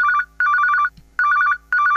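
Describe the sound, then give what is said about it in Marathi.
A mobile phone on a table rings in a bright, rapidly trilling electronic tone, repeating in four short bursts separated by brief silences. “टेबलावरचा mobile वाजतो.”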